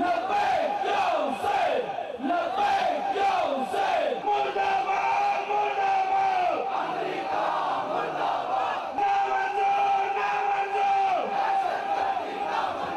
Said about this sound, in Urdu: لبیک یا حسین کی صدائیں بلند کرتے ہوئے کانفرنس کے شرکاء نے امریکی استعمار اور دہشت گردوں کے خلاف فلک شگاف نعرے لگائے۔